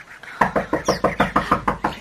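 Knocking at a door: a long, rapid run of evenly spaced, firm knocks with a steady beat, heard alone.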